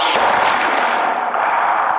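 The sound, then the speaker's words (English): Staged sound effect of artillery guns firing in a battle scene where smoke approaches and gas masks are ordered: a loud, sustained roar of blast and rumble fills the whole stretch without a break. “Put on gas masks. Get ready to fire. Shift 24 meters. 24 meters. Projection, 24 degrees. 24 degrees. Fire!”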